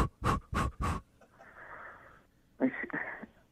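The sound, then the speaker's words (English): Quick panting breaths are taken before pushing in childbirth: three sharp, loud breathy puffs in fast succession, then softer, longer airy exhales with a brief pause between them. “what I'm going to need you to do is take 5 quick breaths. Kind of like...”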